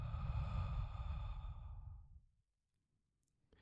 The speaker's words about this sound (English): Big inhale. Big exhale.